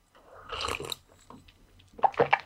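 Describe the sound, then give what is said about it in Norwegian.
Coffee is sipped quietly, with two soft bursts of slurping and swallowing separated by a brief near-silent gap. “jeg prøver å drikke kaffe veldig stille som vanlig. Det er ikke så lett, jeg prøver.”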